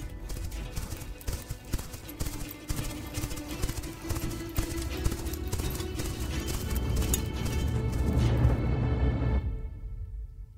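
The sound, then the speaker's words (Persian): Galloping horse hooves as a sound effect, a rider heading out of a forest, with many rapid, dense hoof beats that grow louder toward the end before cutting off abruptly. “سوار بر اسب از جنگل بیرون رفت.”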